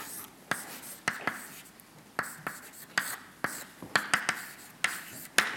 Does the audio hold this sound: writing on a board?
yes